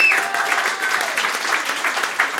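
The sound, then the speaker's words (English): Audience applause for a young adult and children's author at a talk event: dense, steady clapping from many hands at a moderate level, with a faint tone at the very start. “A big round of applause, please, for Tracy.”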